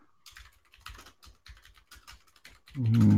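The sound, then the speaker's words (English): Typing on a clicky computer keyboard: a rapid, irregular patter of faint key clicks, cut off at the end by a sudden, much louder sound. “That clicky keyboard.”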